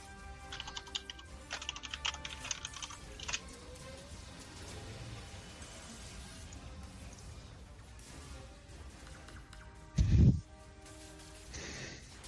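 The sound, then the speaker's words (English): Keyboard typing while notes are taken during a tabletop game session: irregular, light clicking bursts, mostly early on, with one louder thump near the end. “I'm going to write this down this time.”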